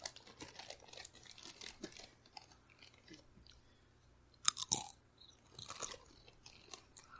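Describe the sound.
Crunchy crackers being chewed close up, with many crisp, irregular crunches and crinkles and a sharper burst of loud bites partway through, with no talking.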